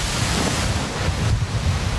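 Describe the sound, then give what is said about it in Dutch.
Ocean waves break on rocks below the cliffs of Donegal in the far north of Ireland under fierce wind. Together they form a steady, loud roar of surf and buffeting gusts with a low rumble, and no voices are heard. “De wind is woest, de oceaan onstuimig. Golven slaan hier stuk op de rotsen.”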